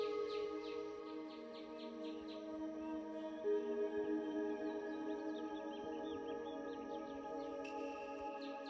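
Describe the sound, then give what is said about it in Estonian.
Small birds chirping in treetops, with light, high, repeated chirps that come in short bursts near the start and again later, set over a steady, humming tonal background. “Kuuled puulatvades sidistavaid linnukesi”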